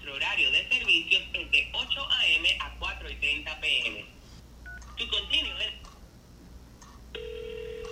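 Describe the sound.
Telephone keypad tones beep as a number is dialed to call government agencies, short bright pulses under steady talking, then a sustained electronic tone near the end.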